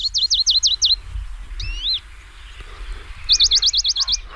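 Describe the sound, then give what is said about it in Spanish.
A Western Bonelli's warbler sings two short, rapid trills of high repeated notes, the second longer than the first, with a brief, different call between them against a faint low background. “mientras escuchamos un mosquitero, el Papi Albo.”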